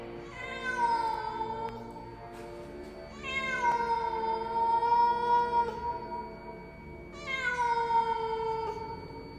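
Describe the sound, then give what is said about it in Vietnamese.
A black cat perched on a roof beam yowling eerily, three long drawn-out wails with a rich, whining tone, each swelling and sagging slightly in pitch, alone without talk. “Một con mèo đen xì, tai dài, mõm dài, đuôi dài đang ngồi chồm hổm trên xà nhà nhìn ông Phúc bằng đôi mắt đỏ lòm đáng sợ và kêu lên những tiếng kêu đến rợn người”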